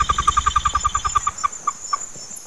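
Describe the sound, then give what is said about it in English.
Pigeon wings flap in a field recording, a fast, even train of many whistly beats that slows, thins out and fades into quieter scattered flutters. “They hear pigeon wings”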